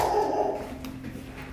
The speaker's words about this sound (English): Sorry for the barking.